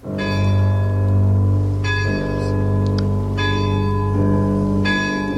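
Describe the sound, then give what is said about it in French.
Large castle clock striking midnight at night, heard as deep, resonant bell strokes about one and a half seconds apart. Each strike rings with a bright metallic attack over a long humming tail, and the tones overlap loudly with no talk. “C'est la grande horloge du château qui sonne les 12 coups de minuit.”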